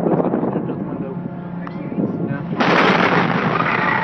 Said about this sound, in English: At 7:51 p.m., the West Fertilizer plant exploded.